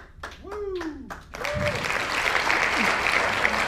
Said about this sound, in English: Congratulations, Jonathan Yakey. Give him a hand.